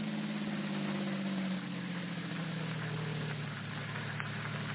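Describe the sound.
A car engine hums low and steady while the car drives along a road, its drone dipping slightly in pitch partway through and then holding even and faint.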